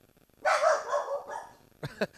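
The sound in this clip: A restless dog barks: one drawn-out, whiny bark, then a pause and two quick, short barks in succession.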